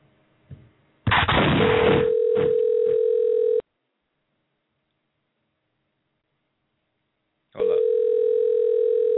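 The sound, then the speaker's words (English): Telephone ringback tone heard while dialing out: after a short burst of line noise, a steady mid-pitched tone sounds for about two seconds, falls silent for roughly four, then starts again. “We're dialing out. Hopefully they get him.”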